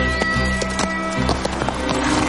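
Horse hooves gallop in a quick, steady rhythm, with many clip-clop thuds as a rider races beside huge windmills, under a continuous tonal background.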